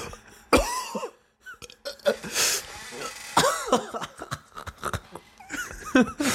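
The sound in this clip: Harsh coughing from someone whose throat was burned by a peppermint that went down wrong. Several rough coughs and throat-clearing bursts are mixed with talking.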